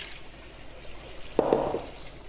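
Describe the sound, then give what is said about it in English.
Water runs while excess salt is rinsed off salted cabbage for kimchi. A steady watery hiss swells into a louder splashing surge partway through. “I'm just washing away the excess salt here. And after washing, you're just gonna give it a bit of a squeeze to again remove any excess liquid.”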